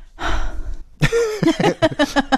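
A woman breathing heavily: a long breathy exhale, then a run of short, voiced, gasping breaths in an uneven rhythm.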